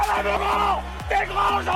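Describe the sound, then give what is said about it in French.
Football supporters chant at a women's French Cup round-of-32 match between Bergerac and FC Nantes. Loud, bellowed voices rise and fall in a rhythmic chant that fills the whole clip. “On vous a donné la parole avec le chant des supporters sur Happy Radio.”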